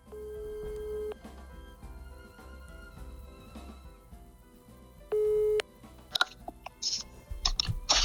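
A telephone ringing tone sounds as a caller rings someone to announce a prize winner: a steady mid-pitched tone about a second long, a pause, then a shorter burst, followed by clicks and handling noise as the line connects.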